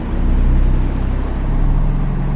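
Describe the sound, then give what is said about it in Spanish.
A garbage truck's engine roars in a deep, rumbling drone with a throbbing low hum, staying loud and fairly even throughout. “Progresivamente, el desagradable bramido del camión de la basura fue creciendo en intensidad y volumen como prueba de su inminente proximidad.”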